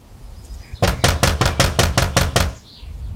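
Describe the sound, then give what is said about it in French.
Knocking on a house door: a quick, evenly spaced run of sharp, loud raps. Quiet background comes before and after. “Eh bien viens, on va aller frapper chez lui.”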